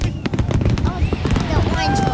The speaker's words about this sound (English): What do you think of the fireworks?